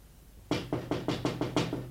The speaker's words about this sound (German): Es klopft ans Fenster. Es ist wer draußen.